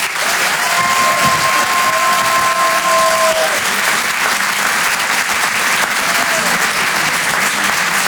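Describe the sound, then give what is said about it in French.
An audience applauds at a live comedy show: a loud, steady wash of clapping runs through the whole clip, with a brief whistle early on. “Faites un maximum de bruit, s'il vous plaît, pour Antoine Donneau.”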